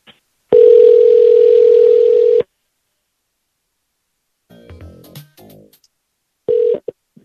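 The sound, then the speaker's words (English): Telephone dial tone sounds steadily for about two seconds, then stops. After a pause comes a quick burst of dialing tones for a call-back, then one short tone at the end. “Let's give him a call back. Here, this is the first number of these two requests. Let's call him back. Here we go. Call him back.”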